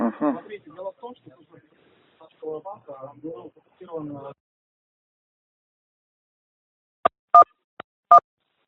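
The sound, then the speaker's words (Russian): Four short electronic telephone tones beep after a stretch of speech as a call to a bank is transferred to its security staff. The beeps are clipped and evenly bright, and the line is silent between them. “ваш звонок будет переведен на сотрудников службы безопасности ВТБ банка”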